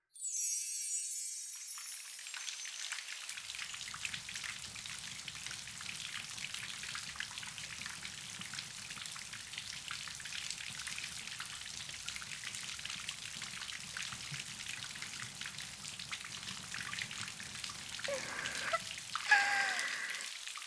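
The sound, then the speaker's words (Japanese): Water rinses something clean in a soft, steady wash of splashing and pouring, faint and continuous, swelling slightly near the end. “そろそろ魔法で洗い流しましょうか。”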